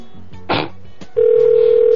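Telephone ringing on a call: a short burst of noise, then a loud, steady single-pitched tone that begins partway through and holds to the end.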